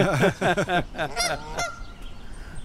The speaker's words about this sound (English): What you're hearing is that contact call between them. You hear two birds calling back and forth.